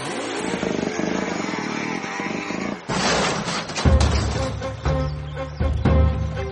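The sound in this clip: A motorcycle engine roaring loudly as the bike bursts out from behind bushes, first a dense, harsh roar, then a revving drone with steady low, humming tones.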